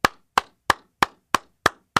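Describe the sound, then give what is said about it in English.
One person clapping hands seven times in a slow, even rhythm. Each clap is sharp and bright with a quick decay, and there is silence between them. “We're going to have two more hours of just me clapping.”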